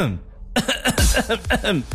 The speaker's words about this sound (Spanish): Si hoy amaneciste con achú y también con tosecita así,